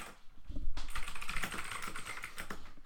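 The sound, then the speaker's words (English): Fingers tap on a computer keyboard in a quick, irregular stream of soft clicks. The typing is faint, with a few louder keystrokes and no voices. “I can't type if the mic is that close”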